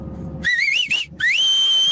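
Pursed-lip whistling carries a wavering, fairly high tune in two phrases split by a short pause. The second phrase rises, then holds a long steady note. A low rumble sits underneath before the whistling begins.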